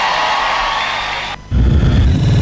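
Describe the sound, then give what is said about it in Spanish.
Audience applause and cheering for a performer, a dense, steady clatter lasting about a second and a half that cuts off abruptly and gives way to a loud, low rumbling sound. “Y aplausos para Julián, que sigue fuerte.”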